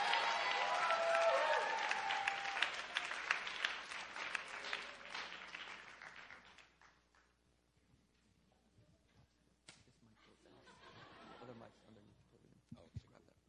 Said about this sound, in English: So let's go ahead and put our hands together. Let's welcome up Pastor Benjamin Robinson.